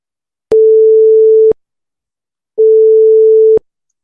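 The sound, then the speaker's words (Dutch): A telephone call is being dialled, and two steady one-second telephone tones play at the same pitch. A second of silence separates them, and each tone begins and ends with a sharp click. No voices are heard. “En ja, we gaan nu Ilse bellen.”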